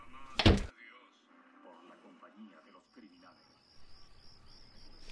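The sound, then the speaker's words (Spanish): A door being closed: one sharp, loud thud at the start, followed by quiet voices. A thin, high, chirping insect-like tone then runs through the final seconds. “Cuando salgas, cierra la puerta.”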